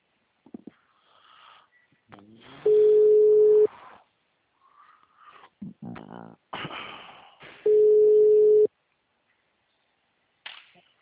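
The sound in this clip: Two steady telephone line tones, each about a second long, sound while a caller waits for the call to be answered. A voice talks quietly between them.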